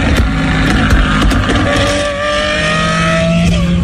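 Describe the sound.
A Ferrari sports car engine roars loudly and without a break, its tone shifting as it revs, with no voices over it.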